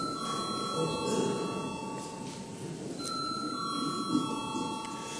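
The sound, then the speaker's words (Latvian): An electric bell rings to call a vote in a parliamentary chamber, giving steady high-pitched ringing tones with a short break in the middle over a low background murmur. “Lūdzu, zvanu.”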